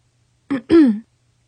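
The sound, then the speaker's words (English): A voice clears its throat in a two-part voiced "ahem", a short burst and then a longer sound that falls in pitch, alone in quiet. “Finally, he cleared his throat.”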